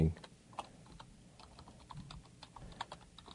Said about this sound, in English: I'm typing my email username and password into the email right now to see if anybody sent us anything overnight.